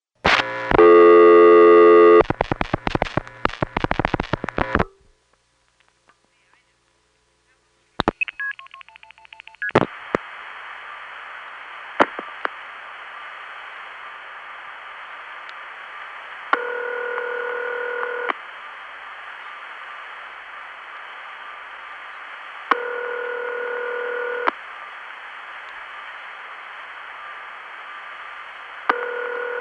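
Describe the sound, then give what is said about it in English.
A long-distance telephone call over a long-haul carrier starts with rapid bursts of dialing tones for about five seconds. A short silence follows, then steady carrier hiss with occasional clicks and three evenly spaced ringing tones. “I have forgotten which one this was, but you'll hear by the long-haul carrier noise that it's probably someplace far, far away.”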